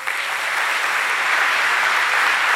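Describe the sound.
An audience in a church applauds to welcome a guest speaker, with dense, steady clapping filling the whole stretch and no voices.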